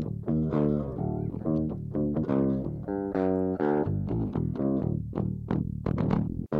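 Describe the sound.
Unprocessed direct-input electric guitar riff, a clean DI tone meant for a djent sound: quick plucked notes and chords played alone at moderate level, with choppy rhythmic stops between phrases.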